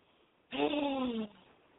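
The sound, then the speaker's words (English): A house cat's meow: one drawn-out tonal cry lasting under a second that dips slightly at its close, heard alone over a quiet background. “My cats are looking at me as I'm heating up the Pop-Tarts. I'm like, no, kitties, not for you.”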